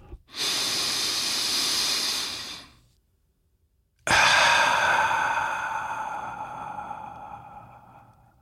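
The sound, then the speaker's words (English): A slow, deep breath heard alone: a steady, airy inhale lasting about two seconds, a brief silent pause, then a longer exhale that gradually fades away. “Let's take a deep breath.”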